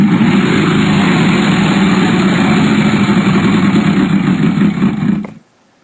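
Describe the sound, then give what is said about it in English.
A game show prize wheel spins at a Halloween-themed wheel game night, making a loud, steady rattling whir that holds evenly for about five seconds, then fades briefly and cuts off to silence. “Spin the wheel.”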